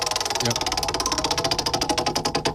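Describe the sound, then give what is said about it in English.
A prize wheel is spun during a topic game, its pointer ticking against the pegs in a rapid, even run of many loud clicks that continues throughout. “I'm going to give the wheel a spin one more time.”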